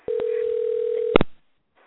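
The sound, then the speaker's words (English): A telephone dial tone hums steadily with a couple of clicks. A brief louder tone burst follows, then the line falls silent. “And we're going to dial now.”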